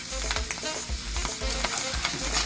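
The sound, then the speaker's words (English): Tomato paste sizzles and spatters in hot oil, a continuous crackling fry broken by a few scraping stirs in the pan; no one speaks. “It's gonna pop and splash because oil and water don't mix, don't get excited. So then I'm gonna add in my tomato paste.”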